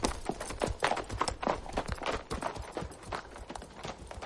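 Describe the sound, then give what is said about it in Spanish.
Horse hooves clip-clop in a quick, steady rhythm as a rider rides away on horseback, with many even hoofbeats at moderate loudness. “Se sube al caballo y se marcha de vuelta hacia Madrid.”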